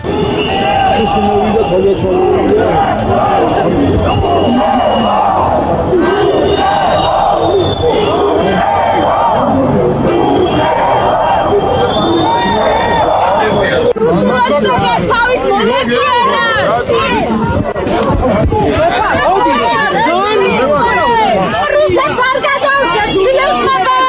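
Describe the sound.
Protesters at an April 9 memorial rally shout and chant as a dense, loud crowd of voices. The noise is continuous, and sharper shouted calls grow more prominent in the second half.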